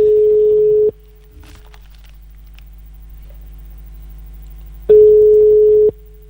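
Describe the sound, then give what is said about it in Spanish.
Two long bursts of a steady telephone ringback tone on an outgoing call, each lasting about a second. A long gap with only a low hum separates them. “Está sonando, güey. Ojalá que nos conteste ahí.”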